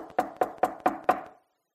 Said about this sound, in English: God knocking.